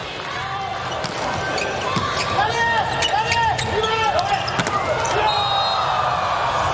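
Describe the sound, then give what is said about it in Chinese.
A volleyball serve during a match against the Slovenian team, with sharp ball impacts and repeated high sneaker squeaks over constant crowd noise and voices. “再来卡尔的发球”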